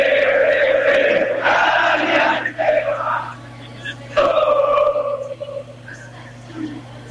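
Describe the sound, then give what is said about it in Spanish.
Argentine barra brava football fans chant in the stands, a loud, dense mass of voices singing a rhythmic chant in two long phrases separated by a brief dip. “Impecable, estás metiendo el público argentino. Ahí está el público argentino,”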